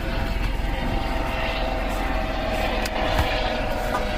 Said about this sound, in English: You can hear the plane going by. I think that's a plane. No, it's a helicopter. Wrong thing. Helicopter going by.